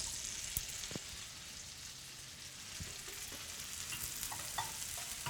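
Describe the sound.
Shiitake mushrooms sizzle in olive oil and butter in a pan for chicken soup, a faint, steady frying hiss dotted with small crackles and pops, with no talk.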